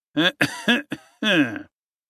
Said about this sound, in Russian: Кто-то покашлял сзади.